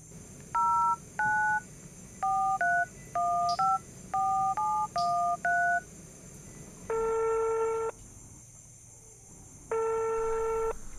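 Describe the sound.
Telephone number being dialed on a keypad after an email went unanswered: a rapid run of short DTMF beeps in uneven pairs, followed by two long, steady tones separated by a pause.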